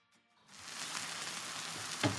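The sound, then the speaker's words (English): An omelet with shredded cheese and chopped chives sizzles in a covered pan with the heat turned off, a faint, even hiss that swells in after a quiet start, with a small click near the end. “Then sprinkle on the shredded cheese and fresh, finely chopped chives. Now I'm covering the pan with a lid, turning off the heat and allowing it to cook.”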